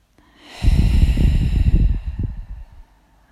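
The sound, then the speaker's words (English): A deep breath in during a meditation session: one long, loud, airy inhalation with a rough, nasal, snort-like texture, lasting about two seconds, with no talking. “Breathe in.”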